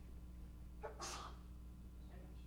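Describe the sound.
A single sharp human sneeze bursts out alone, a brief breathy intake followed by a hissing explosive release, over a faint steady hum.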